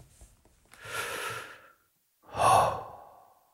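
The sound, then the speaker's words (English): A deep breath: two long, breathy whooshes of air with a short silent gap between them. The second whoosh is louder and fuller than the first, and no voice is heard. “Okay, let's start by just taking a deep breath.”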